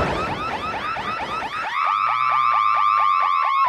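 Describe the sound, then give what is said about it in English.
An oversensitive home burglar alarm goes off with a loud, rapid, repeating warble, then settles into a steady piercing tone with pulsing chirps running on. “I'm sorry about the noise. It's just my burglar alarm. It's way too sensitive, then it goes off all the time.”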